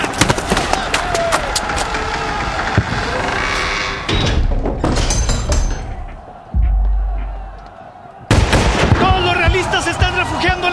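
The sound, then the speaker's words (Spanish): Gunfire during a dramatized battle at the siege of a fortified granary: many sharp cracks and thuds in dense, chaotic bursts, with a quieter lull in the middle before the firing surges again, and voices in the mix. “Sigan, sigan disparando.”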